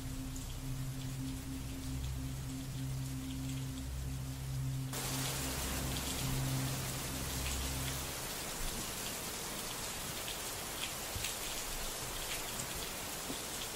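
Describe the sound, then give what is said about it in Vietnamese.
Rain pours steadily onto the tin roof of a small attic, a dense, continuous hiss that stays even for the whole clip, with a low droning tone beneath it during the first half. “Chỉ còn lại tiếng mưa vẫn cứ ào ào rội xuống mái tôn của căn gác nhỏ.”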